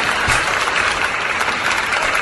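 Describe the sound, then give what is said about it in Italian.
Audience applause breaking out on cue, a short, steady burst of dense clapping at an even level throughout. “Questo è l'applauso ideale che scatta a comando.”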